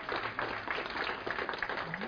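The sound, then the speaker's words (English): A church audience claps in a dense, busy patter at a pregnancy announcement, with voices mixed into the steady applause. “I don't know if you're clapping for me or with me.”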